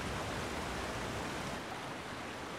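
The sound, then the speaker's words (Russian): A mountain river flows beside a natural spring, separated from it by boulders, giving a steady, dense rush of water that stays even and unbroken throughout. “Ринри выходит из природного источника. Рядом течет горная река, отделенная от источника валунами.”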